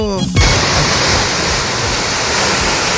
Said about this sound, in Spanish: Este es el flujo de agua que viene proveniente del sector cordillerano.